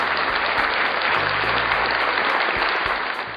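Applause from a crowd cheering, a steady, dense wash of clapping that carries on evenly through the whole clip.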